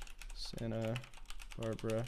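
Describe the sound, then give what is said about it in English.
Quiet, rapid key clicks on a computer keyboard as a chat message is typed, running steadily under a person talking. “I'll write it to you in Facebook chat too.”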